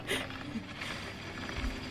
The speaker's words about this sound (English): I'm cranking the machine. Oh, it's still kind of torn.